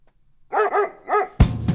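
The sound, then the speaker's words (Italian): Three sharp dog barks in quick succession from a recording used at the start of a song, then a loud burst of music cuts in. “E quindi io facevo partire solo l'abbaio e... D'altronde da DJ cane quale ero, mi sembra giusto.”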